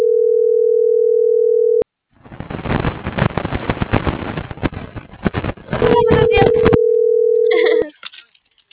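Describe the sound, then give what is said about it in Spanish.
A telephone dial tone while a number is dialed: a steady low tone cuts off with a click, then gives way to a few seconds of rough, crackling noise. The steady tone returns and stops, and brief bursts follow. “marcando al 19.”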